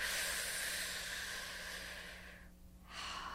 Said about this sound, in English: Take a deep breath.